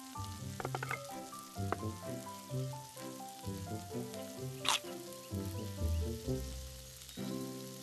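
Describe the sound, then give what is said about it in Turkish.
Köfte meatballs frying in a pan give off a faint, steady crackling sizzle that runs beneath background music. “Köftelerin bir yüzü pişti şefim. Çeviriyorum.”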